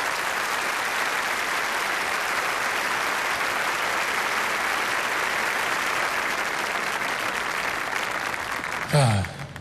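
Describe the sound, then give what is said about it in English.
An audience applauds, with steady, dense clapping that holds at an even loudness throughout and has no voices over it. “Applaud that.”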